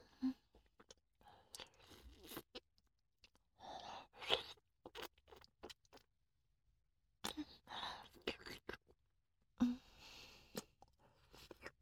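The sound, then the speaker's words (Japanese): Faint chewing and crunching of food comes in scattered bursts, very quiet, alongside soft whispering. “ほら、食べちゃう。”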